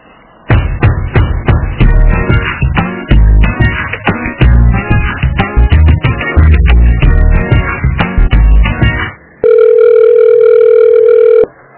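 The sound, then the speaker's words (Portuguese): Telephone hold music with dense plucked, percussive notes for about nine seconds while a call is being transferred, then a brief gap and a loud, steady, continuous telephone tone to the end. “eu vou transferir ligação”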